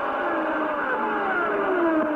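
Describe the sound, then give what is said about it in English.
Racing engines on the first lap of a race, a Ford Cosworth-powered car leading two 12-cylinder Ferraris, making a loud continuous high-pitched wail of overlapping engine notes, one of them sliding lower in pitch. “Ford Cosworth in front, two 12-cylinder Ferraris, gnawing away at it as he completes lap number one, Mario Andretti in the lead.”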